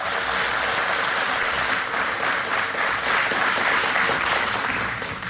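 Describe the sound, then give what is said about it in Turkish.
An audience applauds the conductor of a Turkish folk music ensemble at a concert. Thick, even clapping from many hands holds at full strength throughout and eases slightly at the very end. “Alkışlarınız bu kez şefimiz Ahmet Turan Şan için.”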